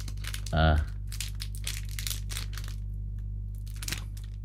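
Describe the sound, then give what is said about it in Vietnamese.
Crinkling plastic wrapper as green tea peanut candy is unwrapped: one loud, brief rustling burst near the start, followed by people talking. “Kẹo lạc trà xanh. Đây anh Sơn Hải, em bóc ra cho anh coi luôn.”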